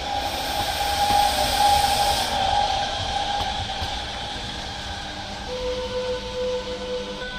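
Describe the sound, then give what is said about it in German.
A train arriving at a station on the Centovalli line between Domodossola and Locarno, coming from Santa Maria Maggiore in Italy's Val Vigezzo. Steady rumbling rail noise and hiss carry thin, sustained squealing tones, slightly louder at first, with no voices. “kommt der Zug aus Santa Maria Maggiore im italienischen Val Vigezzo, der Verlängerung des Centovalli.”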